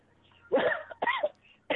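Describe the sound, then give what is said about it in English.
Three harsh, throaty coughs from a person with a lingering cough, loud bursts separated by short quiet gaps, the last one cut off at the end. “Still got this fucking cough.”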